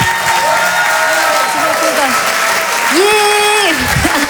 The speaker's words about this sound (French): Je vous demande de l'encourager. Faites du bruit, s'il vous plaît, pour Lise de Hurtevent.